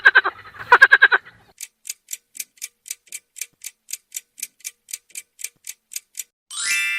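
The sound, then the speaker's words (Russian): A frog croaking: a quick run of buzzy, harmonic croaks opens, then a long, evenly spaced series of dry clicking notes, closing with a short raspy burst. “это квакает лягушка.”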